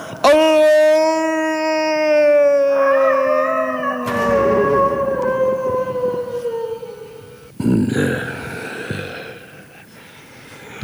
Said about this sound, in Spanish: Y el rey aulló.